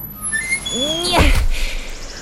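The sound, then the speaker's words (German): An automatic lift door inside a rocket slides open with a short, loud whooshing burst, preceded by a few curving, whistling electronic tones. “Die Tür geht automatisch auf.”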